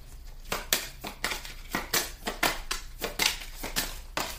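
Tarot cards being shuffled and drawn: many quick papery rustles and snaps in an irregular rhythm, fairly loud and crisp throughout, with no voices.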